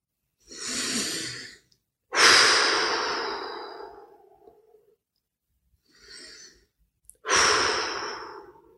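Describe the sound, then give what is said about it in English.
Deep breathing during a guided relaxation exercise: two slow breath cycles, each a softer inhale followed by a longer, louder sighing exhale, with quiet pauses between. “Begin by taking a few deep breaths.”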